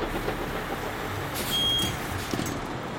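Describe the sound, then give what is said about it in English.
Low engine rumble of a reduced-emission minibus, a steady, faint, even drone with no clear peaks across the whole stretch. “We're boarding a greatly reduced emission minibus.”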